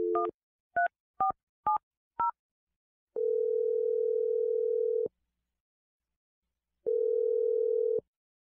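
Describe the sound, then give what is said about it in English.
A phone call is placed with five quick dialling beeps of varying pitch, then two long, steady electronic tones separated by a silent gap. The sound is clean, with no voices. “Okay, I'm going to dial it right now. Here we go.”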